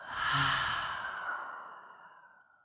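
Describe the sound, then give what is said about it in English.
A single deep exhale through an open mouth, following an inhale through the nose during a guided breathing exercise. The breath is loudest near its start and fades steadily over about two and a half seconds. “go ahead and inhale in through the nose. Open your mouth and exhale.”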